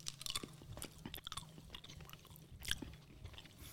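Jelly beans being chewed, faint, irregular soft crunching and wet chewing sounds that come in a quick, uneven run throughout.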